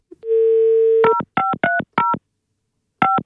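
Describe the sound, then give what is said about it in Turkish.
Telephone keypad tones while dialing a call: a steady dial tone holds first, then a quick run of short, clear keypad beeps, and one more beep after a brief pause. “Efendim. Arıyorum Hakan'ı arıyorum şimdi.”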